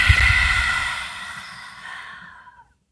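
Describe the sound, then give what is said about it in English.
A long exhale during a guided breathing exercise on a rest day: a soft, airy rush that starts fairly strong and fades gradually over about two and a half seconds into silence. “Okay, now take another breath in through the nose. Let it all go.”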